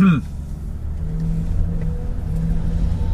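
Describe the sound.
A car drives past on a street, giving a steady low engine rumble and drone that holds at an even level for the whole moment.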